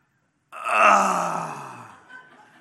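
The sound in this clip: A preacher's voice imitates a groan: one loud, drawn-out vocal groan that begins after a brief silence, then slowly fades and trails off.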